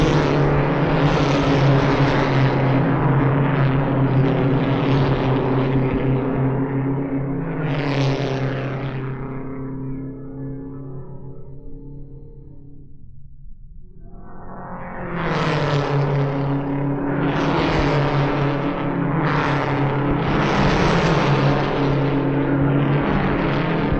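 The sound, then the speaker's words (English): Race cars lap an oval track at about 140 mph, their engines a loud, steady roar that swells as cars rush past, dips into a brief lull midway, then surges again as several more cars sweep by. “Pat O'Connor as they go into the turn to the west side of the track. First lap at 136 miles an hour.”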